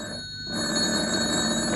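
A telephone rings in a hotel room, a steady electronic bell tone that grows a little louder after a brief dip and holds continuously to the end, with no voices.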